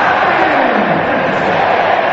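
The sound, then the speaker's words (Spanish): A stadium crowd roars before the kickoff of a football match between Paraguay and France in Philadelphia, a loud, dense and steady wash of massed voices with no single call standing out. “El juego que mira su cronómetro va a autorizar, señores, y el público acompaña cuenta regresiva.”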